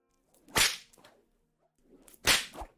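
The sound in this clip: Two whip lashes, each a sharp, bright crack followed by a softer secondary snap, separated by a quiet pause and heard alone without voices.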